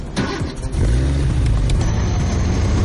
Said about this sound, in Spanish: enciende el motor